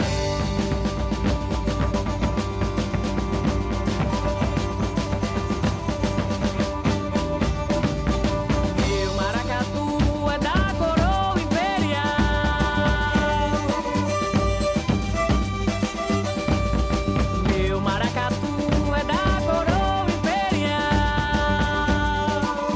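Maracatu, the rhythmic folk tradition of northeast Brazil, plays for the whole stretch: dense, driving drumming with layered percussion and sustained tonal instruments, loud and unbroken.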